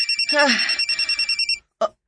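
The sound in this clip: A cellphone rings in a rapid, pulsing electronic trill, many quick beeps in a row, and a voice briefly sounds over it. The ringing cuts off abruptly, followed by a short silence and one brief burst of sound.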